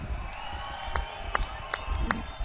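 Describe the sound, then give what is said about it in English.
Crowd cheering and clapping at the close of a blues festival in Burnaby, with a few high whoops or whistles cutting through a continuous roar of applause. “another big round of applause, closing out the festival.”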